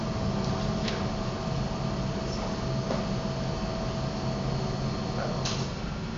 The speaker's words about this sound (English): Noise, fan.